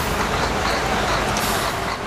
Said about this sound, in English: These trucks are passing right next to the community, just here.